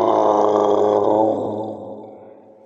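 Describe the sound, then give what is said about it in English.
A monster growling and roaring: one long, deep, throaty rumbling roar that holds strong for over a second and then gradually fades away, heard alone. “you were attacked by a monster?”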